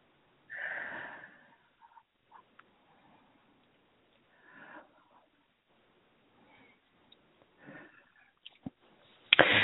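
Three slow, deep breaths taken during a guided relaxation, each a soft, airy rush spaced a few seconds apart, faint and with no talk over them.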